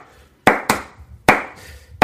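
Hand claps imitating stereotypical pop-song claps: four sharp, bright claps in an uneven rhythm, each ending quickly, with nothing else behind them.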